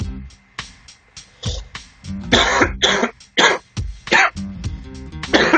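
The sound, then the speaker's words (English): Harsh chesty coughing from a lingering cough that has lasted about a week, a rapid run of loud, rough bursts broken up by throat clearing. “again, I do apologise. Chesty cough. Can't get rid of it. I've had it for about a week.”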